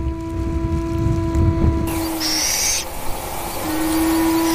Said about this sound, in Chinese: 作为高原留鸟，这个狮牙缝是它固定的巢穴，坚固安全，避风挡雪，小枭们能安然长大。